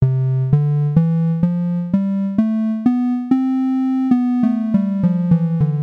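A major scale in twelve-tone equal temperament, played on a bright, buzzy synthesized tone. Eight notes step upward at an even pace to a held top note, then the scale descends more quickly back to the low starting pitch.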